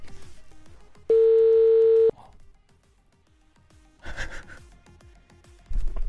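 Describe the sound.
A telephone tone sounds while a call is dialed during a radio morning show: one steady, loud electronic tone lasting about a second, followed by quieter rustling and a brief noisy burst.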